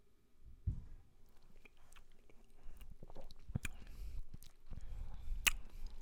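A quiet sip of rye whiskey, with faint wet mouth sounds, a soft low thump near the start and a few sharp small clicks over near-silence.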